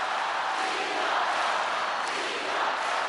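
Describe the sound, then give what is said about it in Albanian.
A huge crowd cheers to welcome Pope Francis in South Korea on a national holiday, a dense, steady roar of many voices that holds at an even level without breaks. “nisi kështu me turmën oqeanike që e priti me brohoritje e me një kort papritur në gjuhën italiane. Roft papën.”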